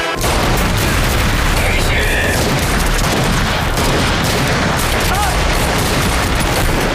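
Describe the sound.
Gunfire from a wartime raid on an enemy stronghold: dense, continuous volleys of rattling shots and heavy booms that stay loud and unbroken across the whole stretch.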